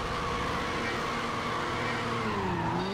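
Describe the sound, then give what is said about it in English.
A racing car engine roars in a video game as a race restarts, in a car fitted with nitrous. The engine gives a continuous harmonic whine with a slight wobble in pitch and no voices. “So we're going to do the Monstro up here. All right, whenever you're ready, you go. Okay. Restart the race. Here we go.”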